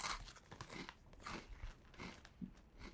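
Someone crunches Flamin' Hot snacks, making repeated faint, crisp bites and chewing crackles in an irregular rhythm.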